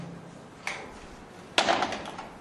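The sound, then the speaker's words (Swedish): A gate being closed behind people entering a property: two clacks over steady background noise, the second louder and followed by a short metallic rattle. “Ja, då går vi in, men vi stänger grinden.”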